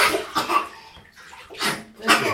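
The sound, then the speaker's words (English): Water is tipped from one cup into another, giving a few short, splashy, gurgling pours separated by brief pauses. “You can tip the water from one cup to the other.”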